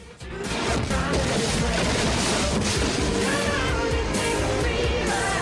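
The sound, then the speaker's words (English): Heavy crashing and smashing as sacks of rice fall like bombs onto a village and tear through the palm-leaf roof of a hut, a dense, loud, continuous roar of impacts and debris sustained throughout. “A sack crashes through a palm leaf covered roof of one of the huts and splits open.”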